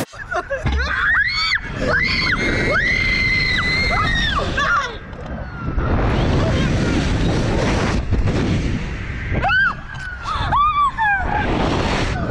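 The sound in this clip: A woman screams on a slingshot ride at a Florida amusement park, with repeated high shrieks over a loud roaring rush of wind that drops out briefly midway before the screaming returns.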